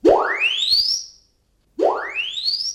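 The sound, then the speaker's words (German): Two loud rising sweeps from a magnetostrictive actuator, a stainless steel cylinder about a metre long driving sound into rock. Each tone climbs smoothly from a low buzz to a high whine, with a brief silence between them. “Was Sie hier gehört haben, ist ein sogenannter magnetostriktiver Aktuator.”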